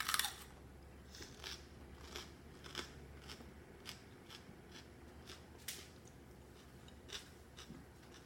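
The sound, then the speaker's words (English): Crunching of seeds being bitten and chewed while eating, a series of many sharp, crisp cracks spread irregularly over a low, quiet background. “It's like eating bubble wrap. I've been into five or six seeds there, and I don't feel a thing yet.”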